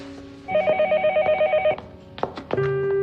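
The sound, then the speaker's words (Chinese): A telephone rings with a bright, rapidly pulsing electronic trill that lasts over a second, followed by a few clicks, knocks and a sharp clunk. “哦，对不起，我接个电话。”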